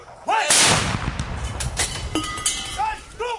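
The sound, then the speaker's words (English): A gun salute fired by World War II-era 25-pounder guns: a heavy, sharp boom bursts out, then a long rolling rumble rises and falls until a second abrupt shift near the end. “As five World War II-era 25-pounder guns fired their gun salute 17 times at intervals of exactly 2.5 seconds”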